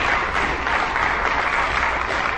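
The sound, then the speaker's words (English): An audience at a church service claps hands in a dense, steady burst of applause that stays loud and even throughout, with no clear gaps or rhythm. “If you think that's wonderful, give the Lord a hand clap.”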